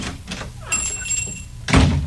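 A door opens as a customer comes into a music shop, with a faint knock early on and a heavier low thud closing it out.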